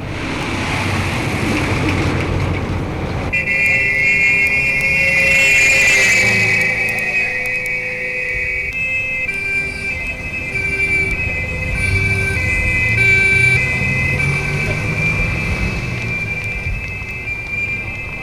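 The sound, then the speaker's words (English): Noisy, crowded street traffic in Germany with siren tones holding steady over a constant rumble of vehicles, loud throughout with no voices. “You walk out into the streets of Germany. Noisy, narrow, jammed with vehicles of every description.”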